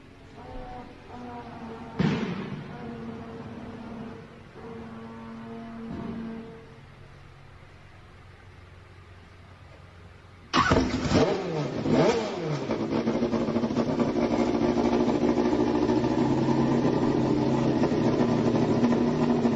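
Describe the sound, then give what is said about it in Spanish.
A racing car engine fitted with a silencer fires up partway through and keeps running with a loud, steady, rough idle until the end; before that there is only quieter low noise and one brief sharp knock. “¿En qué segundo se pone en marcha el motor de Mariano Werner?”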